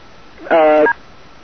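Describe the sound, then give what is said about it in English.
A single electronic beep on a telephone line: one steady, loud tone with a bright, buzzy edge, lasting under half a second and standing alone. “Oh, good, I heard a beep.”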